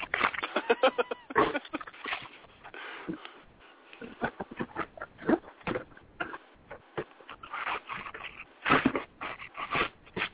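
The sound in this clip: A dog eats cookie dough ice cream with many quick, wet licking, smacking and sniffing noises. The bursts are irregular and fairly faint, with short pauses between them.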